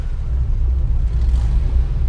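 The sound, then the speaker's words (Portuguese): Low, steady rumble of a car engine accelerating while a child drives from a father's lap; a dense, continuous drone with no distinct revving surges. “Já que sabes conduzir, então agora acelera. Diz lá assim: acelera, carro.”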